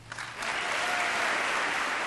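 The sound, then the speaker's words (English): Applause and a standing ovation from Republicans during a presidential State of the Union address, starting quietly and swelling within half a second into a loud, sustained wall of clapping. “The president started with domestic issues, and practically every line he uttered was interrupted by applause and standing ovations from the Republicans.”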